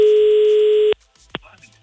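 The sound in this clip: A steady telephone tone sounds while a radio show calls a listener, holding one even pitch for just under a second before cutting off abruptly, followed by a single short click and faint low noise.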